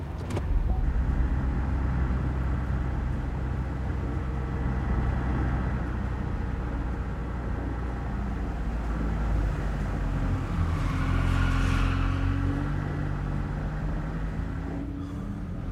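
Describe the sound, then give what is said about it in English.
Car engine running as the vehicle drives through a parking structure: a steady, loud low rumble lasts throughout, and the engine tone shifts in the later seconds. “The blonde man turns on the car and drives through the parking structure.”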